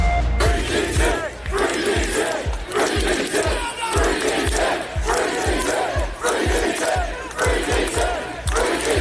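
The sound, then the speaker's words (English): Demonstrators protesting outside a police centre chant and shout together as a loud, dense crowd, with a steady rhythmic pulse of low thumps running beneath the voices throughout. “That was the sound of demonstrators outside Basingstoke's police centre protesting the arrest of Daniel Thomas, better known as Danny Tomo.”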